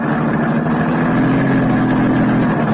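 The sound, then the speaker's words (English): Car engine running while driving, a steady, loud low hum with a constant rumble that holds even throughout, with no voices. “I drove out to the charred ruins that had once been the Chantilly Murdoch paint factory”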